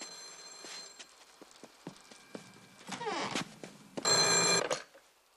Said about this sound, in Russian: Услышав звонок, она включает ночник и бросается к телефону.